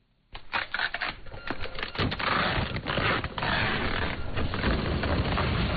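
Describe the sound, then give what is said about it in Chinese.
A label printer in an e-commerce workshop prints express delivery labels, with a fast, steady mechanical rattle that starts abruptly and chatters on without pause. “海燕对着电脑里的下单记录一张张打印快递单”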